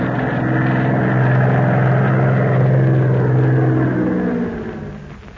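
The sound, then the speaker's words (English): A propeller airplane approaches from behind a mountain, its engine a steady low drone with a buzzing hum that holds loud for several seconds, then fades toward the end. “Can you see that plane? Where is it? Down behind that mountain, but it's coming this way.”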